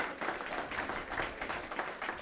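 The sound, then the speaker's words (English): A church audience claps during a service, a dense, fairly quiet patter of many hands sustained throughout with slight swells. “Let's give God, you can give God a hand, right? We can do that here. We can clap for God.”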